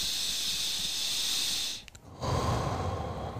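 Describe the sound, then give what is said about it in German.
A slow, deep breath drawn in: a steady, airy hiss lasting almost two seconds before it cuts off, followed by a lower, rougher rush of air. “Zieh mal Sauerstoff in deinen Körper rein. Atme mal du kannst auch für 3 Sekunden lang einatmen”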